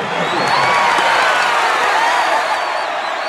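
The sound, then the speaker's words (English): A crowd cheers wildly as a president smiles at a ceremony welcoming tributes: a steady, dense roar of many voices with shrill whoops and whistles that holds at an even, loud level throughout. “The president smiles benignly as the crowd goes wild”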